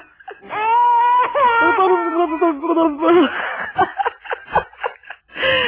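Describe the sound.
A baby's cry in a radio drama: a long, wavering, high wail lasting about three seconds, followed by shorter, broken sobbing bursts.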